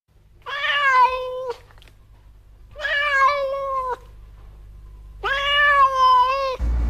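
A cat meows three times. The cries are long, loud and drawn out, with clear pauses between them, and a brief low thump follows at the end.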